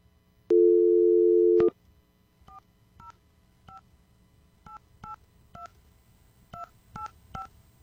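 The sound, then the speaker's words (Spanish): A steady telephone dial tone sounds for about a second, then a string of short, crisp touch-tone keypad beeps follows at an uneven pace as a number is dialed. “Tengo que marcar el número uno, no sé por qué, pero ya. Ahora sí está sonando”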